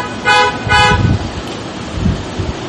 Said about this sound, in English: Let's get some honks on that.